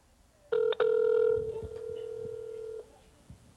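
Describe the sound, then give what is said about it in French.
A telephone ringing in the background: a steady mid-pitched electronic tone that opens with a short burst, breaks for a moment, then holds for about two seconds before cutting off. “On devrait entendre. On entend un petit peu le téléphone en arrière.”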